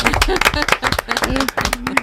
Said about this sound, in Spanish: Un aplauso.